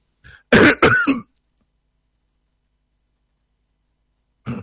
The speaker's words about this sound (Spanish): perdón por las tos.